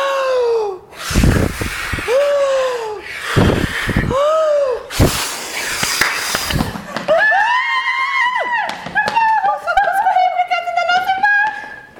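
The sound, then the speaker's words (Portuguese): A voice imitates a hungry she-wolf blowing hard to knock down a house, with a few loud, breathy blasts, the last one long. Voiced cries come between the blasts, and higher tonal voices follow afterward. “Pode soprar, que você vai conseguir. vou soprar até essa casa cair, pois com a minha fome está de arrepiar.”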